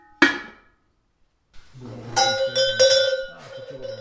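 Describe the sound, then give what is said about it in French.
A small redon-type cowbell rings: one sharp metallic strike, then after a silent pause a longer stretch of bright, overlapping clangs with clear sustained tones that keep ringing to the end. “C'est le petit redon, c'est ça, le numéro 5.”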